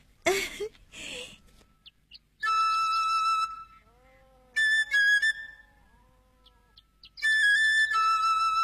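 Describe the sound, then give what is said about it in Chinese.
An eagle flute played, giving high, pure whistle-like notes in three sustained phrases separated by pauses, with two brief noisy bursts at the very start. “我只要还能喘气就能吹鹰笛啊。我吹给你们听听。”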